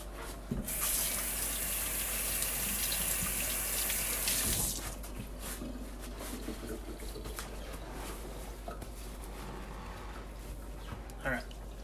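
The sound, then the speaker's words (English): A sink tap runs as hands are washed under it, a loud gushing hiss for about four seconds that then shuts off, followed by quieter handling sounds while people talk. “I'm gonna give my hands a quick wash.”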